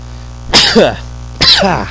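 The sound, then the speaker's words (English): A person sneezes twice, about a second apart. Each is a loud, voiced burst with a sharp breathy onset that trails off quickly. “See, just thinking about it makes me sneeze.”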